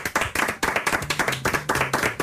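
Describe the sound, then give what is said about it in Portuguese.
An audience claps in a fast, even rhythm, loud sharp claps from many hands repeating steadily throughout. “É sério que aplaudimos isto?”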